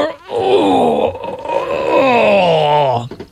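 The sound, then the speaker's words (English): A long, drawn-out vocal groan imitating the strain of bending down to pick something up. It is one sustained, wavering moan lasting about three seconds, and its pitch slides lower toward the end. “See, that's what they should put in the test, how long it takes you to groan before you can actually do anything.”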